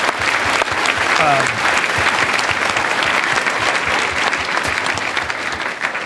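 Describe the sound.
Loud, sustained audience applause at a live talk event on climate, a thick wash of many hands clapping steadily for about six seconds.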